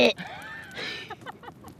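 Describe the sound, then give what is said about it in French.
A person imitating a ewe's bleat: a quavering, nasal voiced cry with wavering pitch, followed by a few short pulsed bleating sounds that fade out, fairly faint. “Et les brebis, tu les connais bien, toi? Oui. Je connais leur bêlement.”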